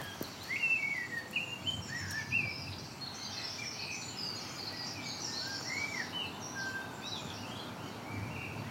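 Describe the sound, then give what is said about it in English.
Blackbird song beside a cycle path on an old railway line south of Bath: several clear, fluting whistled phrases, faint overall, over a steady low hiss. “So you can hear the blackbird singing up there. It's nice to have them started.”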